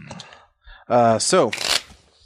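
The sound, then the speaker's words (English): Cards being shuffled for the villain deck during a cooperative card game: a brief, loud rasping riffle that follows a short burst of voices. “Play them and shuffle the villain deck.”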